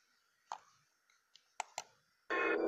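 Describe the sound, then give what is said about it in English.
A few sharp, bright clicks with short gaps between them, followed by a sudden, steady burst of much louder noise at the very end. “Oops. Have to do another click.”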